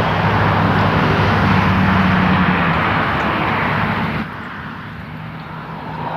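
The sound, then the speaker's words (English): Loud traffic noise, a dense, steady roar of vehicles that drops abruptly to a lower rumble near the end. “that's traffic noise. And I looked down and saw that the microphone was like pegging on the noise.”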